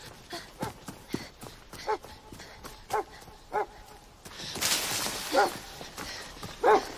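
A dog barks a few times in woods near a bird enclosure, each bark a short, bright, separate burst. A broad rush of rustling noise fills the second half.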